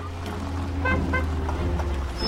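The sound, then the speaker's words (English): Low, steady engine hum from a small red hatchback car driving around a square where schoolchildren play, with a couple of brief tooting tones in the middle. “Outside, a tiny red hatchback pulls around a square where school children play.”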